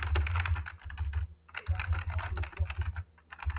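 Rapid typing on a computer keyboard: many quick clicks in an uneven, steady flurry with a few short pauses, over a low hum and with no voices.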